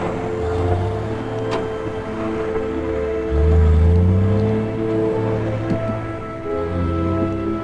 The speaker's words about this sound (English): Jeff walks alongside the semi as it pulls onto the highway and picks up speed. The cab passes Jeff by, followed by the hitch and trailer.